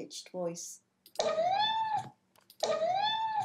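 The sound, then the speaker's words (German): A hungry cat meows twice in a high voice in the morning. Each call is long and drawn out, climbing slightly in pitch before leveling off, with a brief softer sound before the first. “In diesem speziellen Kontext klingt er so, wenn er morgens Hunger hat und weiß, dass ich ihm gleich sein Frühstück bringe. Er miaut dann oft mit sehr hoher Stimme.”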